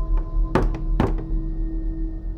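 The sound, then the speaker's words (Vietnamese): Knocking on a door at night, a few dull, hollow thuds with two heavier blows standing out, heard alone against a low steady hum. “Tiếng gõ cửa vang lên cùng cộp trong đêm.”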